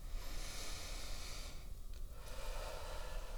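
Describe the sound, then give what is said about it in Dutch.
Slow, deep breathing in through the nose and out through the mouth, a faint, steady airy rush with a brief dip partway through and no talking. “Adem dan weer diep in en uit. In door je neus, uit door je mond.”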